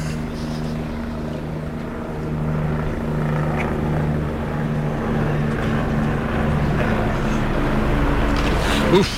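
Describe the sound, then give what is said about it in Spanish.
Helicopter passing over a bullring during a bullfight, a steady low rotor drone that holds throughout at an even level and swells slightly at the very end. “Bueno, pues nada, ahí va el helicóptero.”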